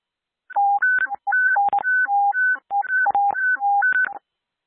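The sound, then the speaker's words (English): Daily radio sound test tones warble in rapid alternation between a high and a low beep, running in several bursts separated by short gaps at a strong, even level, with no talking. “Unit, stand by for the daily sound test.”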